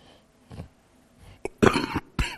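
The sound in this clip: A person clearing their throat of a lingering irritation: a few short, rough coughs and throat-clearing bursts, softer at first, then a louder cluster followed by one final harsh clear.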